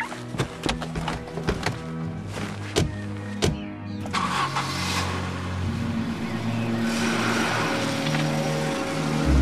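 A car engine starts and settles into a steady running drone as the car drives off, preceded by a series of sharp knocks and clicks.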